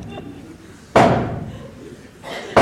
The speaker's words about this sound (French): Le régisseur frappe les trois coups.